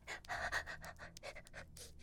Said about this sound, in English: I'm trying to remember to breathe. Inhale, exhale.